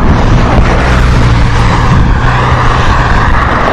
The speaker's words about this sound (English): You can hear the traffic going by.